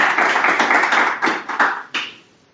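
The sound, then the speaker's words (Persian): Applause for a speaker at an association meeting: a dense burst of hand clapping that thins into a few separate final claps, then fades to quiet. “دست برای دوستمون بزن.”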